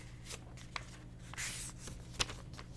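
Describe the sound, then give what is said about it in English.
Paper being folded in half and then into quarters gives a few soft, quiet crinkles and rustles, with a brief papery swish and one sharper crease snap near the end. “let's fold this again so you guys can hear it. Here's one half. There's another half. Fold it over into quarters.”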